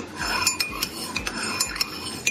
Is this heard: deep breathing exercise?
no